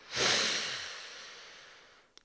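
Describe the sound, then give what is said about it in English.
A single big, deep inhale for breath work: an airy rush that swells quickly, then slowly tapers off, ending with a tiny click. “So on the count of three, let's do a big inhale. One, two, three.”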